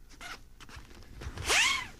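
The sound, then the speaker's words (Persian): Climbing rope being gathered in and freed from snags: faint rustling and a couple of soft low knocks, then a brisk rising-and-falling zip-like swish near the end. “حالا باید تنابم رو جمع کنم، خورده گیر داره اما خب با چند تا تقه زدن میشه راحت گیرش رو برطرف کرد.”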